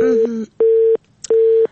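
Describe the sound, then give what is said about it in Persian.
Telephone call cutting off into a busy tone, heard as short, steady mid-pitched beeps repeating at even intervals, fairly loud and clean. “متاسفانه تماس خواهر ما قطع شد.”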